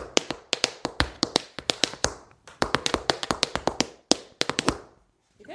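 Sharp, crisp taps of tap dancing in tap shoes, many fast clicks in rhythmic bursts separated by brief pauses, ending in silence.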